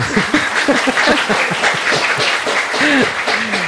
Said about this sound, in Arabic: برافو بربي تسقيفة على أخونا وتزغريطة عاونوا شوي ميساج برافو يعطيكم الصحة تصفيقة